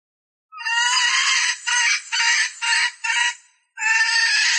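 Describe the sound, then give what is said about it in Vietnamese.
A flock of hens and roosters squawks loudly while being herded, a series of harsh, high calls in bursts of uneven length, some longer runs and several short ones, with no voices. “Tiếng gà kêu với tiếng đập cánh chạy nhảy bay lên loạn xạ.”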